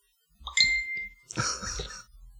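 A mobile phone notification ding: one bright, ringing chime that sustains briefly, followed by a short, rougher, noisy burst.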